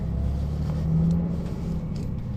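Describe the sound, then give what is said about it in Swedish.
Engine rumble inside a bus riding on a morning trip toward Ekenäs: a steady, faint, low drone that swells briefly around the middle, with no talking. “Här var inte många i den här bussen faktiskt. Jag går här längre bak och sitta.”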